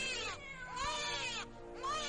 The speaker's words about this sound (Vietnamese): kèm theo cái tiếng khóc đặc trưng của trẻ con, nghe đến sốt cả ruột, lại lẫn trong cả cái tiếng mèo kêu.